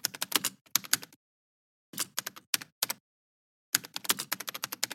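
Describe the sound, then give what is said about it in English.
Typing on a computer keyboard with clammy fingers: three bursts of rapid keystrokes separated by short silences, the clicks crisp and uneven in rhythm, the last burst the longest, with no talk. “typed Ross with clammy fingers”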